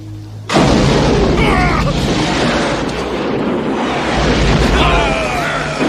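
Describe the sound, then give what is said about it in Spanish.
Massed gunfire as everyone opens fire at once in a naval battle scene: a sudden loud barrage that erupts after a brief quiet moment and holds as a dense, continuous, roaring wall of shots and booms. “¡Ahora disparen todos!”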